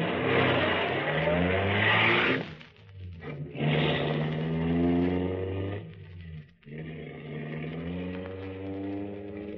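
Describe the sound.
A car engine drones as the car drives off, steady and loud with low harmonic hum, briefly dipping twice before running on.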